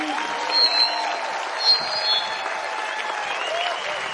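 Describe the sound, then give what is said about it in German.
Audience applause at the close of an evening show in Nuremberg: steady, full clapping from a crowd, with a few brief whistles rising above it. “Applaus für ihn.”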